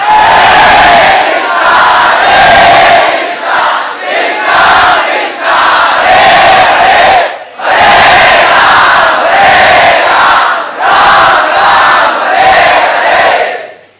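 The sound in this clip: A crowd chants "Hare" loudly in unison, repeating short rhythmic phrases separated by brief gaps, with strong, full voices that keep a steady pulse until a fade at the close.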